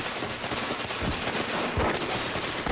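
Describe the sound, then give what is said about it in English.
Gunfire during an armed standoff with the Davidians, someone shooting through a wall: a dense, sustained crackle of shots with a couple of heavier booming thumps standing out. “According to intelligence, there's an arsenal of weapons in this room. So look, the Davidians will shoot anyone who tries to infiltrate. Dude's shooting through the wall.”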